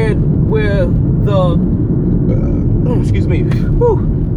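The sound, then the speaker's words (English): Steady low rumble of a car being driven in the morning, heard from inside, continuous throughout with a voice talking over it. “as I said, I am driving, it's just the morning.”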